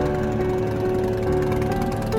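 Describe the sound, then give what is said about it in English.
A motorbike engine driving off into the dark, heard as a steady, loud, low droning hum that holds without a break. “I watch the bike as it races off into the dark.”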